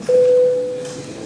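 A single steady, mid-pitched electronic tone marks the start of voting mode in a parliamentary session. It holds level for under a second, then stops, leaving a faint background hum.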